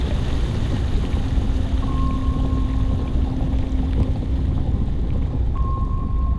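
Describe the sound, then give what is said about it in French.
A submarine diving into the ocean produces a steady, loud rumble of churning water and engine noise, with thin sustained tones running through parts of it. “Le sous-marin s'enfonce dans l'océan.”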